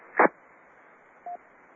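A short amateur radio signal tone: a brief burst of noise, then a single short steady beep a second later, both over faint band-limited radio hiss with no talking.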